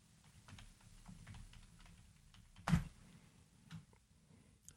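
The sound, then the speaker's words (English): Soft typing on a computer keyboard, a quiet stream of many light key taps with one louder thump partway through. “Type it on the computer.”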